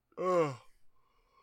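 A single brief voiced yawn: one drawn-out, tonal exhalation lasting about half a second, followed by faint breathy traces and then quiet.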